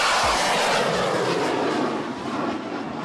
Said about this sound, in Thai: พวกเราคงคุ้นเคยกับการแข่งบั้งไฟในภาคอีสานบ้านเราใช่ไหมครับ